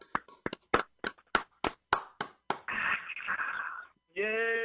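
Hand claps greet a performer's introduction, a steady run of about ten sharp claps, followed by a sustained noisy burst and then a short voiced shout.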